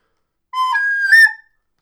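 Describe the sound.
A voice imitates a whistle: one short two-note call, a lower tone followed by a longer higher tone, about a second in all, alone against silence.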